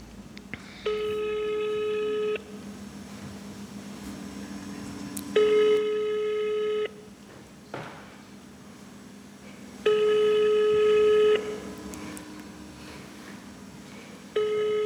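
Ringback tone of an unanswered telephone call: four long, steady buzzing rings separated by pauses of about three seconds, over a low background hum.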